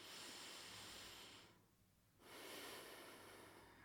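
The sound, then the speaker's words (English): Deep, slow breathing in and out through the nose, a long airy inhale then a long exhale after a short pause, soft and steady with no talking. “Deep breaths through your nose.”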